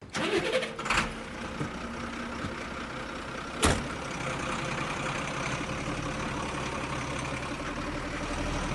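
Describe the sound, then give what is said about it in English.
A removal van is shut and drives off: a sharp thud and a second heavy knock, then a steady mid-pitched engine rumble that carries on to the end. “That is a removal van being shut and driving off.”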